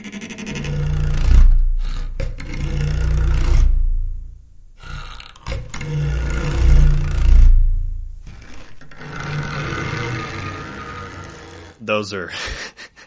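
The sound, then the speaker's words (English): Gritty growling dragon-like roars made by bowing a cactus needle layered with a lion roar, several long rasping bursts separated by short silences, with a brief final burst. “A really gritty, intense sound of bowing this cactus needle, and you combine that with a recording of a lion roar, and that's how you would make a dragon sound.”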